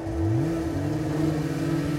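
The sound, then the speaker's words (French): Snowmobile engines, about a dozen machines setting out on a fishing trip, drone in a steady mid-low hum, the pitch climbing briefly at the start before settling into an even roar. “On est parti avec... on est à peu près une douzaine de motoneiges. Est-ce que je vais pouvoir conduire la motoneige, Dad?”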